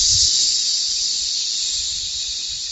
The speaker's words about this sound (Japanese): もう一回じゃあ、同じように吸って吐きます。